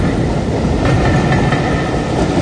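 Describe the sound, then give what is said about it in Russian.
A train rolls along its rails in steady, heavy rumbling roar, broad and loud throughout, with a few faint clicks over the continuous noise and no voices. “увидел лишь длинный выгнутый сегмент поезда, скользящий по рельсам, убегающий от зимы.”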